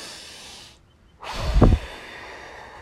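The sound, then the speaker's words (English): One deep breath is drawn, heard as a single loud, breathy rush with a low puff at its peak, after a faint stretch of hiss. “So now I'm going to take a breath. I want everyone to just...”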